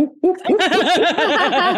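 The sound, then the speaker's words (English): A person imitates a barred owl call with their voice. A short opening note leads into a loud, continuous run of rapid, wavering, monkey-like warbles. “They're called barred owls. I don't know if they live around you, but they go, like that.”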